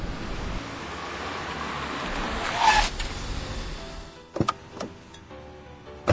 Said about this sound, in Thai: เอาล่ะจอดรถตรงปากทางนี่แหละ